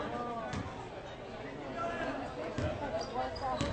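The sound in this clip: A basketball being dribbled on the court during a game, a few sharp bouncing thuds heard under a commentator's continuous talk.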